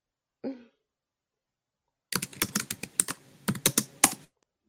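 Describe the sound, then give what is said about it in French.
Fingers type on a computer keyboard in a quick, irregular run of many faint clicking keystrokes lasting about two seconds, after one brief isolated noise and a pause. “t'entend taper au clavier.”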